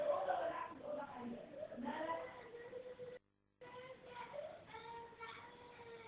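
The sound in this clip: A young boy crying during a tajweed lesson on vowel elongation: drawn-out, wavering wails with a strained, harmonic quality, running steadily at a moderate level and broken by one brief silent gap partway through.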